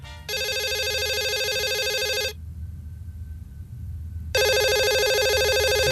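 Electronic telephone ringing in two bursts, a bright warbling ring of about two seconds, then a pause with a low steady hum, then the ring returning loud until the end.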